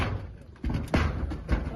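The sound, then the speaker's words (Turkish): Special operations police break a door with a battering ram, giving a few heavy, blunt thuds amid voices within a brief moment. “Cihan S kapıyı açmayınca özel harekat polisleri çağrıldı. Onlar kapıyı koçbaşıyla kırıp içeri girdi.”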